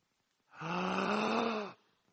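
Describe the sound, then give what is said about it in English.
An audience letting out a deep breath together: one breathy, voiced exhale lasting just over a second, fairly loud and alone, with no talk. “I want you to take in or draw in a deep breath. Ready? Let it out. Again.”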